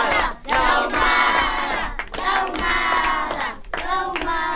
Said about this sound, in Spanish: Fuerte el aplauso, muchas gracias a la gente.